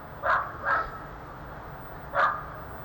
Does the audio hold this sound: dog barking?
yes